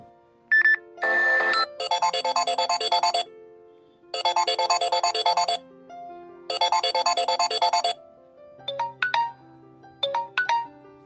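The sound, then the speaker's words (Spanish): Mobile phones ringing: three long bursts of a fast, warbling electronic ringtone melody, with shorter beeps and chirpy tones from other phones before and after, loud and unaccompanied by talk. “Suenan los celulares.”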